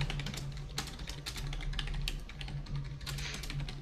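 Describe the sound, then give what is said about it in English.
Typing a question into a chat on a computer keyboard: quiet, rapid, irregular key clicks that continue steadily throughout. “Well, I'm not going to answer it until you type it in the chat.”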